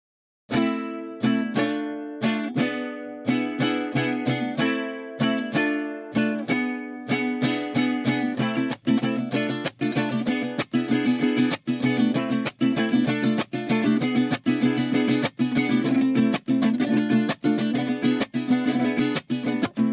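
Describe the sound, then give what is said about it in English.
Percussive strumming on a vihuela, the small five-string mariachi guitar tuned an octave above a guitar, playing solo: sharp bright strokes, spaced at first, then settling into a dense, steady rhythmic pattern. “and then this instrument is the vihuela.”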